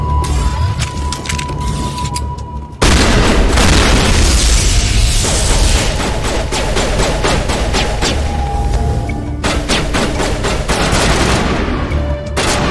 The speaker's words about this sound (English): Gun is way overheated. Dude, can I switch to a different gun?